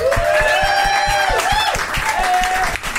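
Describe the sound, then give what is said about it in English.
An audience at a live show applauds a comedian's introduction with a dense, steady patter of clapping, while a few sustained cheering voices ring out above the hands. “You guys, put your hands together for Joelle Nicole Johnson.”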